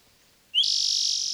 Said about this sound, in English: Wild Swenson Thrushes